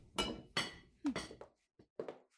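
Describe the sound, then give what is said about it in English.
Dishes clink and clatter during kitchen chores in a series of sharp, bright knocks and chimes. The hits come in a few uneven clusters separated by short silences. “You can leave those chores for now. The mistress of the castle wishes to speak to you. Is that not more important than a few dishes?”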